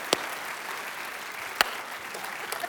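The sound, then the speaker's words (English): Sharp hand slaps of a high five at a church service, with two crisp claps standing out above a faint, steady crowd murmur. “That was a good high five, yeah.”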